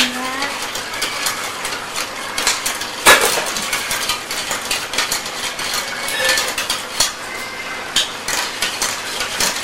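Spoon stirring coffee with sugar, milk and water in a cup, giving a busy run of many quick metallic clinks and scrapes that go on unbroken, with one sharper clatter partway through.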